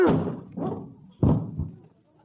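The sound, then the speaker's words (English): Heavy, dull thumps of bodies thrown against a locked door. A few blunt impacts come in uneven succession, with the sharpest one landing midway, then the sound fades to quiet. “Why would anybody lock a door in broad daylight? All we have to do is throw ourselves against it.”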